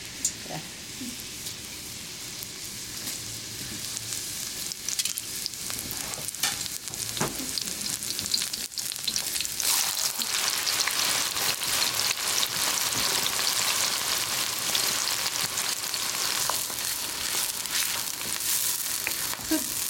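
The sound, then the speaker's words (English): Onion frying in hot oil makes a steady, dense sizzle and crackle that runs continuously throughout, with bright hissing texture and small pops, heard alone without talk. “So if you don't have cumin, you can check with onion, and that's how you know that it's good temperature. See that sound?”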